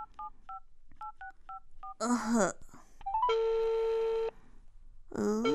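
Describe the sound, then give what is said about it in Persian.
A telephone is dialled with a quick series of keypad beeps. After a brief voice, a single long, steady ringing tone follows, and people talk around it. “گمش کن باش که من پنجه تلفن کنم بگویم که بیایه باز میرم سراغ برشتری و برش بگم که کارش بد است. خب باش که به پنجه تلفون کنم.”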